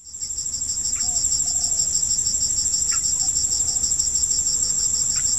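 Forest soundscape dominated by insects: a loud, high cricket trill pulsing rapidly and evenly throughout, with a few faint brief chirps underneath.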